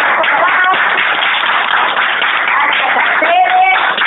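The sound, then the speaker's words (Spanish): Applause breaks out for a woman just interviewed: a dense, steady patter of clapping that stays even and muffled throughout, with faint voices mixed in. “Un fuerte aplauso entonces para la entrevistada.”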